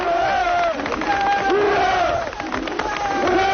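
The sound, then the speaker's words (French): Shipyard workers cheer their strike leader in Gdansk at the Lenin Shipyard as he is carried in triumph. A loud, dense crowd of voices shouts and chants without a break, swelling in waves. “Oui, tous les ouvriers étaient au rendez-vous pour acclamer le chef des grévistes du chantier Lénine.”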